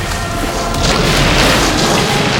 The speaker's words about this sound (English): Burning rocks shower down harmlessly onto the shimmering dome, which now shields Atlantis from the exploding volcano.